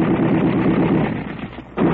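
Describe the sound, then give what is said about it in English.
Gunfire sound effect from a radio drama: a dense, continuous rattle of rapid shots that holds steady, thins into a brief lull near the end, then bursts back at full strength. “During a slight lull in the firing, Professor Cosmo Jones”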